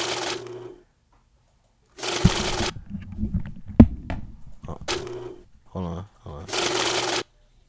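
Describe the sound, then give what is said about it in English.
A money counting machine riffles banknotes in several short, rapid whirring bursts, with people talking in the gaps between the runs. “Okay, that's the money counter right there.”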